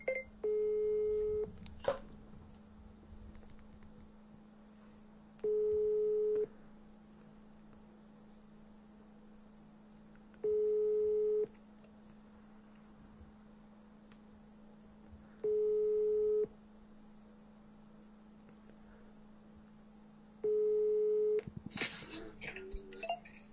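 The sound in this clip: Telephone busy signal on an outgoing call: five evenly spaced steady tone bursts over a constant low hum, ending in a short noisy clatter.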